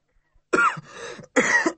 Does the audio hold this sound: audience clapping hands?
no